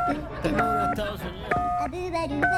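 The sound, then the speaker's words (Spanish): Telephone keypad tones as a US number is dialed: a few short, steady beeps sound while a man talks over them. “Le voy a marcar de inmediato, amigo. Vamos a marcarle de inmediato al presidente. Número de Estados Unidos.”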